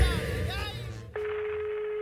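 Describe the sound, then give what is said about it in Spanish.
A steady, single-pitched telephone call tone holds for about a second just before a call is diverted to voicemail, following a short stretch of voices. “Tu llamada está siendo desviada al buzón de voz.”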